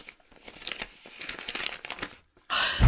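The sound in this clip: A paper letter is pulled from its envelope and unfolded, giving a run of soft, crisp crinkles and rustles at low volume, followed by a sudden louder burst of noise at the end.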